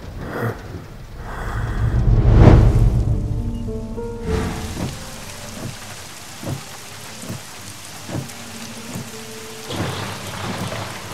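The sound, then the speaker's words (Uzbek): Heavy rain pours steadily, and a rumble of thunder swells and fades early on. Afterwards the rain continues with scattered, sharper drop impacts. “yomg'ir zo'r yog'yapti-ya”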